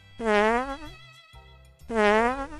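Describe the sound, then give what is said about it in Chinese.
Fart sound played as an illustration: two loud, buzzy, strongly tonal blasts with wobbling pitch, separated by a short pause filled with a low hum. “拉便便的时候有时会放屁，”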